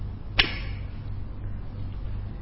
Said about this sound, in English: and the hunter fires an arrow